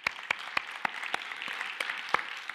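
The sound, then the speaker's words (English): A church audience applauds during a service. The applause is fairly faint and sparse, with scattered sharp individual claps rather than a full, dense ovation. “I'd like to welcome all of those who are listening to our message online today. Why don't we give them a hand?”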